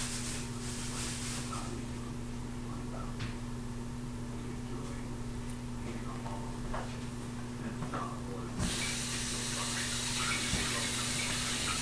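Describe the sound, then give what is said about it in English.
Tap water runs over green beans being rinsed in a sink, a steady hiss that swells sharply louder and brighter for the last few seconds. “So put that in the sink, dump the green beans inside, hose them off.”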